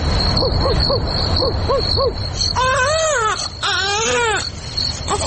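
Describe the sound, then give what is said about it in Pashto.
A baby cries in a drama scene, starting with a rhythmic run of short, arching whimpers that give way to long, wavering wails, loud and alone with no talk. “ماشوم د زړا علت څه دی او اصل کیسه څه ده، دا به په دې ډرامه کې واورو.”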